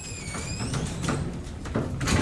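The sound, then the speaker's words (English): An elevator door slides along its track in one sustained, rumbling whoosh, with a faint high whine at the start and a slight swell toward the end. “is it an elevator door?”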